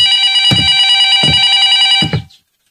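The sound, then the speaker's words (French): A telephone bell rings loudly and alone in one continuous electric ring of about two seconds, then stops abruptly. “on nous appelle !”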